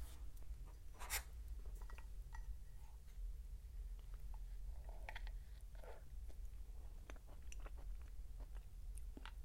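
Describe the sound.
Quiet pens or pencils scratch on paper as an audience writes, a faint, steady scratching with scattered small ticks and no talking.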